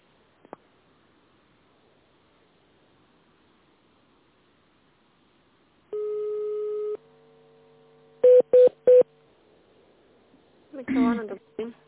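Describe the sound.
Telephone keypad tones dialing a menu extension on an automated phone line. A steady tone comes first, then three short, sharp beeps in quick succession, followed by a brief voice.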